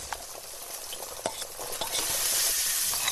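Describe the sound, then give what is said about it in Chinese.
Dried chillies and tender ginger slices sizzle as they are stir-fried in a pan over a chestnut-shell fire. A steady, hissing fry with light scraping stirs grows louder in the second half. “板栗壳烧旺，干辣椒炸香，再加入嫩姜片”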